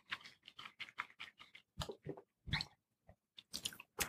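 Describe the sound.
Someone chews while tasting a mild, spiced food, making a faint series of many short, moist, crunchy bites in an uneven rhythm with brief pauses and no talk.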